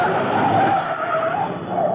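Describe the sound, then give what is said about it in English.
A car pulls away from a factory entrance with a loud, steady engine roar and a sustained squealing tone that wavers slightly in pitch for the whole two seconds. No one speaks. “There go car now from the factory, Mr. Britt. Yes, Cato, that's probably our man, all right. As soon as he passes,”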